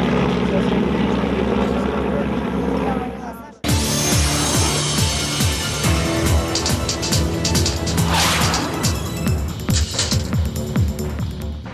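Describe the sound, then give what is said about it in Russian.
Sixteen vintage aircraft fly over a reenactment battlefield, their engines making a loud, dense droning roar that follows an abrupt cut from a different noisy passage. “В завершении над полем битвы пролетело 16 раритетных аппаратов клуба «Эскадрон».”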